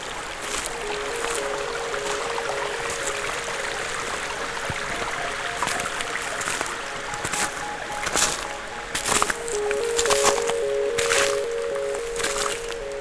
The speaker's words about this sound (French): Des ruisselets.